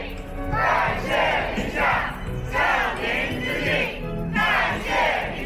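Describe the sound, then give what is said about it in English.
Wuhan locals cheering at a street parade to thank a visiting medical team: a large crowd shouting in unison, with loud chanted bursts that rise and fall in a repeating rhythm. “That's the sound of a parade of Wuhan locals filmed by Chinese state media.”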